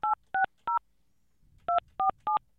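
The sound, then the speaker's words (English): Telephone keypad dialing tones, with a nine dialed first for an outside line: six short two-toned beeps, three in quick succession, a pause, then three more. “Got to dial out a nine first, maybe? Okay. I'll try it again. A nine and then.”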